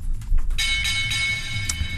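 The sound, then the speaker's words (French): A small bell rings with a bright, sustained metallic tone that holds steady after a short muffled lead-in. “Clochette.”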